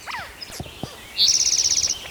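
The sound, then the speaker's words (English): Birds call in the background: a few scattered high chirps, then one bird delivers a rapid, evenly spaced run of sharp, high-pitched notes lasting under a second. “A lot of background noise out of birds.”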